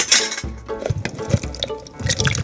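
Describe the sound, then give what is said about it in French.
Juice drains from canned fruit into a container, heard as irregular splashing and trickling liquid with a few louder spills, steady and without voices. “Je vais encore ouvrir ma boîte de fruits, les égoutter en recueillant le jus.”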